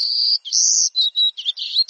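Thin, buzzy, high-pitched song of a golden-cheeked warbler, heard alone as a run of several trilling phrases separated by brief gaps.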